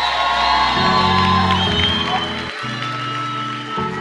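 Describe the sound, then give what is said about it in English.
Congregation at a church service shouting, whooping and cheering praise to the Lord: a loud, continuous mass of voices over sustained low tones, with no break in the din. “Come on, get excited. Give the Lord a shout of praise.”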